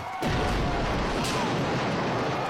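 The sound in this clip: A barrier beside a wrestling ring explodes in a sudden loud blast, followed by a dense, roaring crackle that stays strong to the end.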